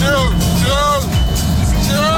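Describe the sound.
A car engine roars as it speeds down Kingsway at nearly 140 mph, loud and continuous with revs climbing again and again, under talk.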